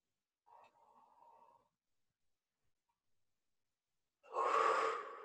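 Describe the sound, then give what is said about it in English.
One person takes a deep breath: a faint, drawn-out inhale is followed by a quiet pause, then a louder, breathy exhale near the end. “Deep breath, heavy energy here in the back of the skull.”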